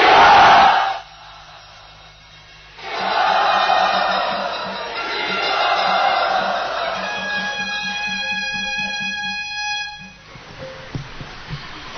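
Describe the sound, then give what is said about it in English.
A temple crowd at Sri Radha Gopinath enthusiastically welcomes the ashram ladies: a brief loud burst of noise, then a sustained roar of cheering that lasts almost to the end, with steady tonal notes running through its later part. “Everyone, very enthusiastically, let us welcome them to Sri Radha Gopinath.”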